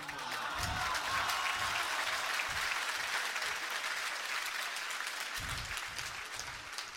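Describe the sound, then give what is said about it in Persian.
An audience claps hands at a religious gathering honoring Imam Ali: dense, loud applause that goes on without a break and fades slightly near the end. “هر دستی که میزنی تو دهنی باشی به دشمن امیر المؤمنین.”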